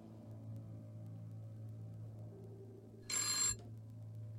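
A telephone gives one short, bright electronic ring burst over a low, steady hum.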